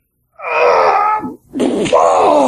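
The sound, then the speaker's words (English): A man groans over a phone line in two long, loud, drawn-out moans separated by a brief break. “I'm hearing groaning in the background, and I can't hardly hear you. That's the guy next to me.”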